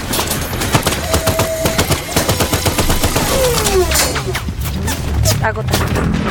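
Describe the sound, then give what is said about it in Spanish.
Gunfire rings out from a building in many rapid, sharp bursts, a dense loud clatter of shots that continues without pause from start to end. “¿Viste de dónde disparan? Desde el edificio, del frente.”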